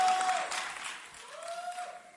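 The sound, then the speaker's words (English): Applause from a church audience welcoming a woman coming forward to give her testimony, a dense wash of clapping that starts strong and gradually thins out. A steady tone runs faintly beneath it. “Oh, please put your hands together for her as she comes. Your claps are not encouraging. Please encourage her as she comes.”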